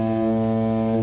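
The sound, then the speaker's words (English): A ferry horn from a ferry on the Solent near the Isle of Wight Festival: a single deep, steady foghorn-like blast, rich in harmonics and held loud and unbroken throughout. “The problem is that sometimes some of these ferries, they get a little bit too close to the festival, and their horns, which sound a bit like this,”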